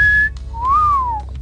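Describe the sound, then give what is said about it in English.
A person whistles a short tune from a song written for a woman. It starts with a steady high note, then a long clear note that slides up and back down. The whistling is alone, with no talk. “Wrote a whistling song for a gal once. Oh? I did. You'd like me to play it for you?”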